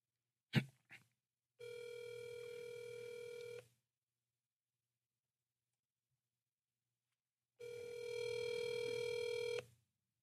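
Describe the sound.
Telephone call tones: two short clicks, then two long, steady buzzing tones of about two seconds each, rich in harmonics, separated by a silent gap of roughly four seconds.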